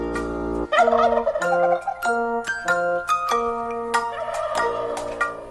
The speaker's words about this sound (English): Three fat turkeys with nothing to do. One waddled off. Then there were two.